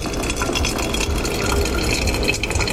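Freshly boiled water is poured through a coffee filter, a continuous, even splashing trickle that runs steadily without a break.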